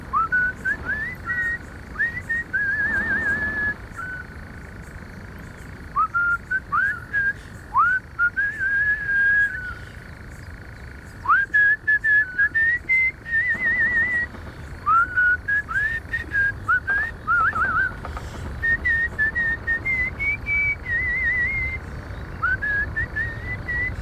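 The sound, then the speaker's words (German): A man whistles a familiar Schlager pop melody while sitting at a dark forest edge. The tune is bright and clear, running in several short melodic phrases separated by brief pauses, with no talking. “Da spitzt er seine Lippen und pfeift die vertraute Schlagermelodie.”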